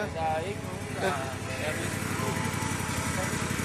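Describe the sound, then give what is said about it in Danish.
A ride-on lawn mower engine runs as the machine drives around a parking lot. It makes a rough, continuous drone with a fast low throb under broad hiss, holding steady throughout. “Må jeg lige spørge dig, hvad er det for en maskine, der kører rundt? Det er en planklipper.”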